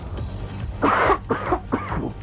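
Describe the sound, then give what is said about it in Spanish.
A person is seized by a coughing fit, giving three short, fairly quiet coughs in quick succession over a low background hum. “me dio un ataque de tos”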